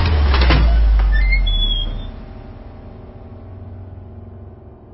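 A door creaks open with short, high squeaks over a heavy low rumble, which then fades into a quieter, steady hum.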